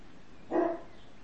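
A single dog bark, one short mid-pitched woof that stands alone against a quiet background.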